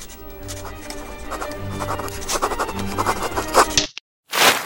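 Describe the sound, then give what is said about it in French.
The scratching of a quill pen as Mozart writes music, with quick rasping strokes over soft music, then a brief silence and a sharp scratchy burst. “Ah merde Quoi Qu'est-ce qui se passe ah, c'est encore cette plume qui est déchirée.”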